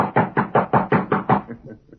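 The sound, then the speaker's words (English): Knocking on a wooden ranch house door: a quick, loud series of many hard raps in a steady rhythm that trails off into a few softer knocks at the end. “he rode to the Lazy Inn, dismounted, and rapped on the ranch house door”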